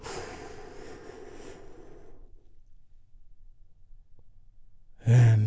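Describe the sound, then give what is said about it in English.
A deep breath taken together as a group during a guided healing exercise: a long, breathy rush of air lasting about two seconds, then fading into near silence. “We do that by taking a big, deep, healing breath all together.”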